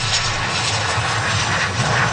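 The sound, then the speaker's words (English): A steady aircraft engine roar as a plane lands in Victoria, British Columbia, in the evening, an even continuous drone with a low rumble underneath and no voices. “The flight carrying the 4 Canadians touched down in Victoria, B.C. just after 6 p.m. Sunday.”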